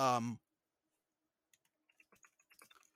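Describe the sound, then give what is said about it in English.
A very loud computer keyboard clatters with many quick clicking keystrokes after a brief voice. The keystrokes start sparse and grow into a dense, uneven run. “that's me typing. In addition to the control key sucking, it is very, very loud. This is a very, very loud keyboard.”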